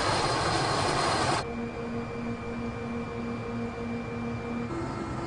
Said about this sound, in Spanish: Va a bordo de un helicóptero MI-8 con un guardabosques de la Reserva Natural de Tunguska.